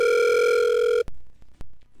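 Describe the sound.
A telephone tone from a phone call sounds steadily for about a second, then cuts off, followed by a few sharp clicks with no talk.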